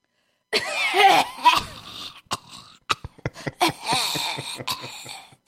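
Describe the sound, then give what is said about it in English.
A person imitates a disgusting, phlegmy cough: one long, gurgling, throaty hack, then many short, sharp coughing bursts in a ragged rhythm, loud and with no talking over it. “You know what I hate the most? Uh-huh. I hate when people cough and the cough is so disgusting.”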